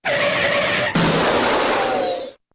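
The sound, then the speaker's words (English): A classic computer's crash sound: a harsh, sustained electronic buzz laced with steady tones that abruptly changes character midway, then holds before cutting off suddenly. “I will tell you that is a, appropriately enough, a crash sound for a computer. Oh. It's a classic computer.”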